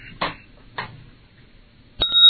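A bell sound effect rings out near the end: a bright, sustained ding with clear high tones that follows a mostly quiet stretch broken by two brief, soft bursts.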